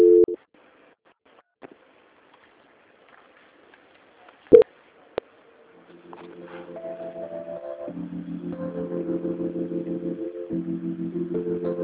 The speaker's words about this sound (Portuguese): Eu desejo um bom dia para o senhor e vou transferir a ligação agora para a auditoria. Um momento, por gentileza.